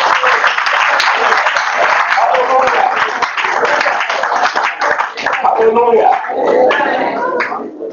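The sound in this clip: A church audience applauds in a service. Dense, loud clapping continues without a break through the whole clip, with voices mixed into it.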